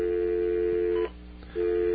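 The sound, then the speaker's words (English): A telephone line gives a steady, loud electronic tone as a call is dialed. The tone breaks off for a short gap and then resumes. “All right, let's make another phone call.”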